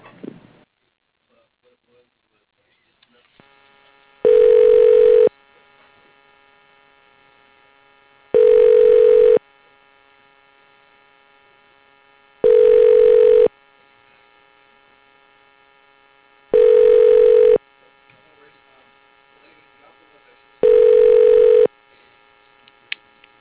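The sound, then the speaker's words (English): Telephone ringing tones while a call is transferred: five evenly spaced, moderately loud one-second buzzing rings about four seconds apart, with near silence and a low hum between them. “Please hold while I transfer your call to Arlene McMahon.”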